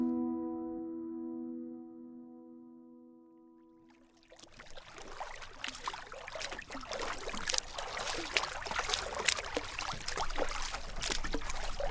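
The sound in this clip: Paddling a boat through water at night: a continuous wash of splashing and dribbling water begins after a few seconds of steady low tones and grows a little louder, with no voices.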